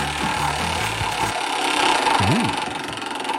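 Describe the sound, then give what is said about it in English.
A small roulette wheel being spun, producing a dense, continuous rattling tick that stays fairly even in loudness for a few seconds. “I'm going to give this uh, little roulette wheel that we got here a spin and find out what game show we'll be playing”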